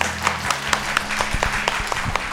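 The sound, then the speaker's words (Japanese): Applause from an audience welcoming a speaker at a corporate investor-relations presentation: a steady, moderately loud wash of many hands clapping, with a few sharper individual claps standing out, under a low steady hum. “皆様拍手でお迎えください。”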